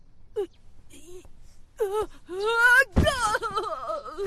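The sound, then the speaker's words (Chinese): A young voice crying, with a few short whimpers that build into longer, louder wavering wails and sobbing catches of breath. “你别哭啊”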